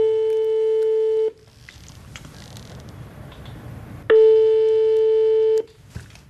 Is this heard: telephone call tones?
yes

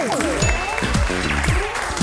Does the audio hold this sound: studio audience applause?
yes

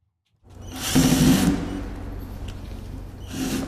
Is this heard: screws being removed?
yes

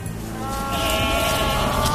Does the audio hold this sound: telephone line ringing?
no

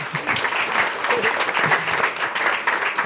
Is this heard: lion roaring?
no

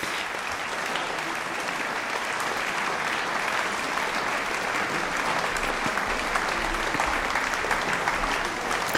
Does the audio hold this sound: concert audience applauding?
yes

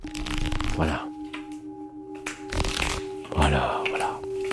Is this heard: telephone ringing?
no

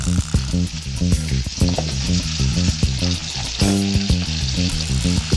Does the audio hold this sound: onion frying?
yes

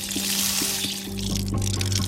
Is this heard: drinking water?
yes

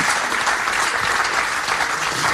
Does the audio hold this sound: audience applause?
yes

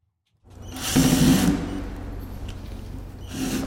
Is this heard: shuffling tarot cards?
no

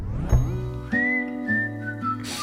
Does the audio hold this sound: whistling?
yes

